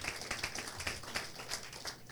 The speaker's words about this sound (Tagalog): Palakpakan po natin ng Panginoon.